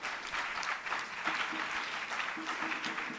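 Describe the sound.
An audience applauding during a church service: dense, steady clapping that holds at an even level for about three seconds, with no pause or clear swell.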